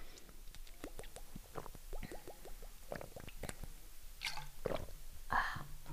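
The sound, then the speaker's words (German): Someone takes sips of a drink, with soft wet gulps, slurps and mouth clicks repeated many times at a low level, followed by a breathy exhale near the end. “Oh, ich muss noch einen Schluck trinken, mir ist gerade so warm, ey.”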